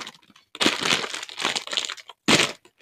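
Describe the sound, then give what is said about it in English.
A snack bag is torn open in a few loud bursts of crinkling and ripping plastic, separated by short pauses. “Crack it open. Ugh. The bag is ripped. I can't get it.”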